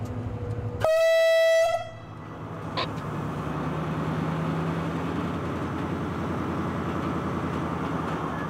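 A train starts a slow shunting move at a terminal, limited to about 5 km/h: a single loud, tonal horn blast lasting about a second, followed by a steady low rumble as the train gets moving.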